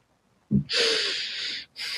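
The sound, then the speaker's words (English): A pregnant woman takes a deep breath in: a long, airy inhale lasting about a second after a soft onset, then another breath begins just before the end. “I need to take a breath. I feel like talking a lot and being pregnant makes me so out of breath real quick.”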